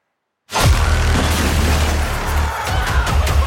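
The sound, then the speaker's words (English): Video-game gunfire blasts through a wall in a sudden loud burst after half a second of silence, then a dense, steady roar of noise holds at full strength to the end. “You're gonna have to shoot him through the wall. Where? To the right of the door. Shoot him now! Do it now!”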